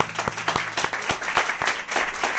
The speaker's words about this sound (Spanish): Vamos a dar un aplauso.